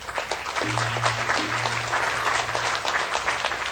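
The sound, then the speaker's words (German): Canned studio audience applause is played as a sound effect after a joke. It is dense, continuous clapping from many hands at a steady level throughout, with a low, steady hum beneath its middle part. “Gut, dass wir den Applaus haben.”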